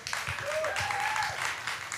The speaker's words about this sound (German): Kleiner Applaus bitte.